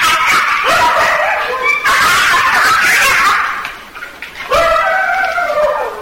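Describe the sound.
A dog barking and yipping, with whining, high-pitched harmonic cries running loud and almost continuous, dipping briefly before the yelps resume.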